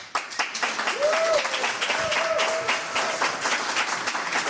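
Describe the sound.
Applause and cheering greet a guitarist as she is introduced on stage: dense, steady clapping fills the whole stretch, with a couple of sustained whistles rising above it.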